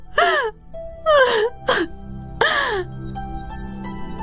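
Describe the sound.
Loud wailing cries from someone pleading with their father not to sell them: four drawn-out, rising-then-falling sobbing wails separated by short pauses, the later cries trailing into quieter sound.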